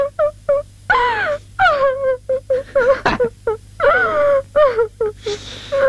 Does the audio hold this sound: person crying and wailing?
yes

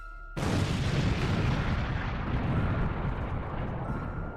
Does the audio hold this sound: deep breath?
no

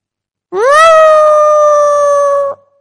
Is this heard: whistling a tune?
no

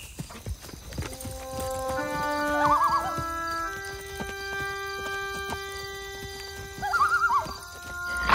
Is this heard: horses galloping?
yes

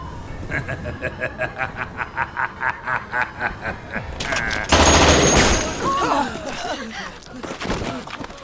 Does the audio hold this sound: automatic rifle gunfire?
yes

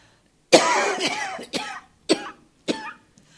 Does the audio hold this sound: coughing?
yes

